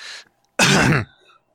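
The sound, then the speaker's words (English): A person clears their throat once, a loud, rough, raspy burst lasting about half a second. A fainter sound comes shortly before it, and no one speaks. “All right, you gonna clear out your throat, getting that out of there?”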